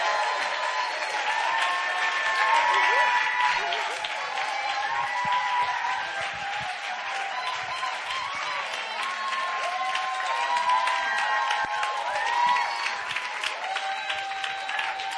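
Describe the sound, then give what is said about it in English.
Audience applause and cheering greet a pastor coming up to the stage for an evening ministry gathering. The clapping forms a dense, steady wash that holds at an even level through the whole clip. “So let's put our hands together to welcome up Pastor Sunhee Robinson.”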